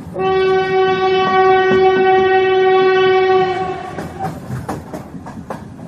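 A train departing a station sounds a long, loud steady horn for about four seconds, then wheels rattle in quick clicking beats as it moves off.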